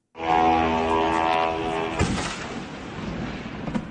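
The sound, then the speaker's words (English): An attack drone flying toward a Moscow oil refinery gives a buzzing, harmonic engine whine that holds steady, then a sudden sharp bang halfway through gives way to a rougher, noisy rumble with a few smaller cracks; no voices. “This is the sound of a drone flying on into a Moscow oil refinery this morning, the second time this week.”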